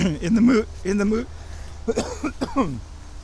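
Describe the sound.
A person clears their throat in a few rough, scraping bursts in the middle of speaking, with talking just before and around it.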